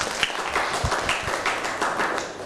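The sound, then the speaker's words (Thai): Students in a classroom clap for their classmates after a group presentation. It is a scattered patter of many hands, fairly faint and uneven over a couple of seconds. “นั่งลงครับปรบมือให้กับเพื่อน”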